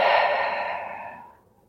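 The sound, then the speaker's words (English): A long, deep breath out during a mindful breathing exercise in pregnancy, a soft breathy rush that starts fairly strong and fades steadily to silence in under two seconds. “And one more time, inhale. Exhale completely.”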